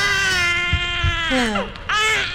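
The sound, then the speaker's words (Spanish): An infant cries in a loud, steady wail that drops in pitch, breaks briefly, then starts again in a fresh strained cry. “Bueno, deja atender ese pelado, que es que llora mucho.”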